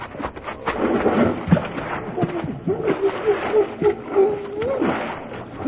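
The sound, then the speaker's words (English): A man jumps into cold water with a broad, rough splash and sloshing, followed by a steady hum of voice. “I'm going to take me a long run and jump and get wet all at one time. All right, let's go. Here I go.”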